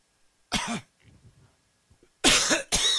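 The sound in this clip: Three breathy blasts of air into a microphone to blow fluff off it: one burst, a pause with faint rustling, then two loud bursts close together.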